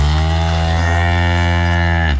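A cow gives one long, loud, low moo that holds a steady pitch before cutting off abruptly.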